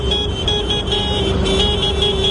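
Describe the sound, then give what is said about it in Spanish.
Tractors driving through Málaga's city centre in a farmers' protest give a steady, loud engine drone with a constant humming tone and no distinct separate events or talk. “La imagen a esta hora sigue siendo la de la tractorada que hoy han organizado en el centro de Málaga las asociaciones agrarias.”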